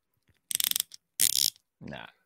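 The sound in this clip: An action figure's ratcheting shoulder joint is worked: three short bursts of rapid, gritty clicks separated by brief silences.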